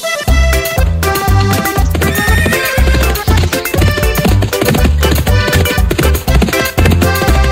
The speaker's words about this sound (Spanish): Caballo percherón es el más bueno, trabaja mucho y mucho lo quiero.